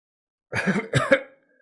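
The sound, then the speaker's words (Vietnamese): Two short, raspy coughs in quick succession from an injured person about to spit up blood, the second slightly stronger and trailing off, alone against silence. “Lý Diệu ho khan, vội nhổ ra hai ngụm máu”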